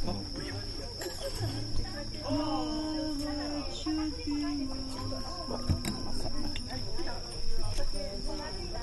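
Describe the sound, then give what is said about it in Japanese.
Insects chirping in a steady, faint, high-pitched drone that runs throughout, heard beneath music and scattered clatter. “音楽に虫の鳴き声が乗ってもいい感じですもんね”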